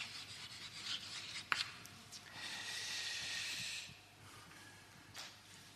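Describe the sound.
Scratchy rubbing of writing on a board during a lecture: a sharp tick, then a long rasping stretch of strokes and a shorter scrape near the end, with no one speaking.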